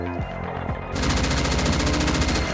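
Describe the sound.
Rapid automatic gunfire from a shootout at a corporate building: a dense, unbroken burst of shots starts abruptly about a second in and runs loudly to the end, following a stretch of low droning sound.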